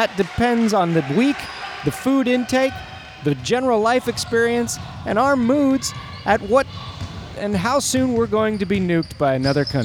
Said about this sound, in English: The sounds you're hearing right now are not world-ending warfare. No, those are just two teams facing off each other at the 7 o'clock game.